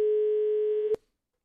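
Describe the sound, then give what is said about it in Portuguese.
A steady telephone line tone follows a dropped Skype call. The single sustained tone lasts just under a second, ends with a short click, and gives way to silence. “Cai, caiu a, o vídeo, o Skype? Caiu o Skype, mas a gente segue por telefônico.”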